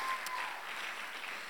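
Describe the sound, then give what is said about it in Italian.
An audience at a Sunday church meeting applauds its leader, a soft, steady wash of clapping that stays even and faint from start to finish. “Facciamo un applauso a questo fantastico responsabile!”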